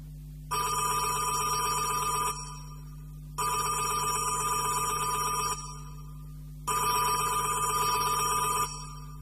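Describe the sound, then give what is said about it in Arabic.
A telephone rings at a monastery in Old Cairo: three steady, bright ring bursts of about two seconds each, separated by short gaps, with no talk over them. “وجاله تليفون”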